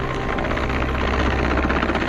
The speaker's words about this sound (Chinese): 直升机匀速上升高度，将落水人员成功救至舱内